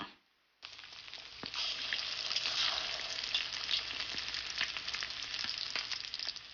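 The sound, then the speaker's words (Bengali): Egg-coated chicken pieces hit hot oil in a frying pan. After a short quiet moment, a loud, steady crackling sizzle bursts in and keeps hissing evenly to the end. “প্রতিটি টুকরোয় ডিমের আবরণ পড়ার সাথে সাথে একটি একটি করে fry প্যানের তেলের মধ্যে ছেড়ে দিন।”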